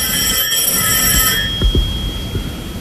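A telephone rings with bright, high electronic tones. The ringing holds steady through the whole stretch, and a few dull low thumps sound underneath it.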